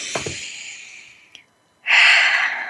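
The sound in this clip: A deep breath drawn in, heard as a soft airy hiss that thins out over about a second and a half, then after a short silence a louder, fuller breathy rush that holds steady to the end.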